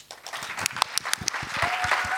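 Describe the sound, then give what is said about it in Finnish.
Audience applause after a concert performance at a church gathering, starting with scattered individual claps and thickening into fuller, steadier clapping, with a brief high tone near the end. “Eli nyt näin mahtavien aplodien jälkeen on kiva aloittaa.”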